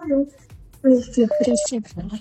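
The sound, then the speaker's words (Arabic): A short electronic telephone tone marks an incoming call on a radio phone-in. It sounds between bursts of talk. “كمان اتصال. الو، راديو حلمنا. الو،”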